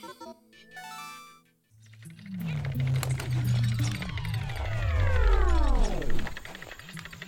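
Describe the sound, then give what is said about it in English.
Pikmin video game effect of the treasure jar depowering: a short run of chiming electronic notes, a brief pause, then a swelling buzzy hum with tones swooping down in pitch, loudest near the end. “That was the sound of the Pikmin treasure jar depowering because we have collected every treasure on this cave floor.”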